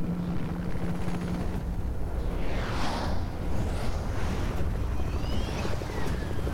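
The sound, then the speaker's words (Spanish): A helicopter descending over a city in a film scene, a loud, steady rotor whir with broad rushing noise that continues throughout without voices. “Está descendiendo un helicóptero donde baja Bruce Wayne.”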